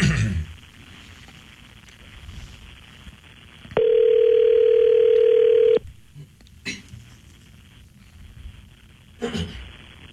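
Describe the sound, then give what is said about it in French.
An outgoing phone call rings once on the line: a single steady, even ringback tone of about two seconds, with faint background noise before and after it. “OK, ça va sonner.”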